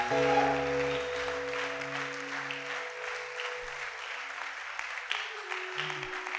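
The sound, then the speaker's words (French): Loud, continuous applause and acclaim from a church audience during a worship service, a dense patter of many hands sustained throughout, with steady low tones running underneath. “Est-ce qu'on peut continuer à acclamer très fort là?”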